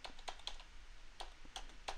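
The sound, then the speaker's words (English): Keystrokes tapped on a computer keyboard's number pad as a phone number is entered, a handful of faint, separate clicks in an uneven rhythm. “And type in the phone number that you want to call, minus the dashes. Don't put the dashes in there, so area code first and then number. So I'm going to do that now.”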